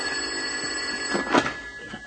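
A telephone rings as a steady, high electronic tone, with a brief burst of rustling and clatter partway through as the buried phone is found.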